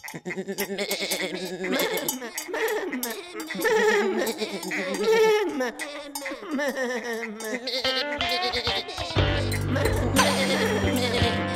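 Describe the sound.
Goats bleating: many quavering, wavering bleats that overlap one after another. A denser, clanking texture joins near the end.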